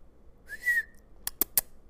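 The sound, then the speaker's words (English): A male construction worker in a grocery store whistles as if calling a dog. A single sliding whistle tone holds briefly, then three short, sharp clicks follow. The sound is faint and there is no talk. “like a dog whistle, like something that you would literally do to a dog when you were like trying to get its attention.”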